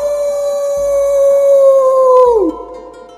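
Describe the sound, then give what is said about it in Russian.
A young woman howling like a wolf with her head thrown back, her voice imitating the animal in one long, loud, steady tone that holds for over two seconds, then drops sharply in pitch and breaks off. “Девушка медленно открыла рот и одновременно зажмурила глаза. И вдруг она завыла, запрокинув голову к небу.”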